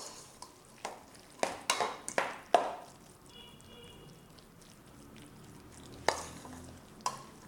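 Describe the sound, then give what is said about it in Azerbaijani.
A spoon stirs and mixes ingredients in a bowl, producing a quick cluster of sharp clinks and scrapes. A quieter stretch follows, then two more isolated knocks near the end. “Bir qaşıq yardımı ilə bunları yaxşıca qarışdırıb.”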